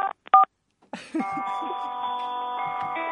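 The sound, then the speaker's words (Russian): Telephone dialing tones: a few short, bright keypad beeps, then a brief pause and a steady, sustained multi-tone sound that holds to the end. “Заветные 7 цифр в телефоне.”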